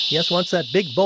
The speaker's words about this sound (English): it's just some very loud noise coming from the treetops. How can an inch-long cicada generate that kind of volume?